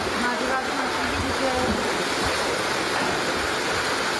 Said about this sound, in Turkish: Yarıya kadar suyu geçtik, adamları kurtardık yani. Çok sayıda ev ve iş yerini su bastı.